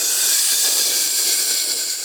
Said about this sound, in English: came the rumbling hiss, cutting him off